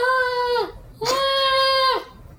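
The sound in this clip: A voice imitates a ghostly whining moan with two drawn-out, nasal wailing tones separated by a short gap, each sagging downward in pitch at its end.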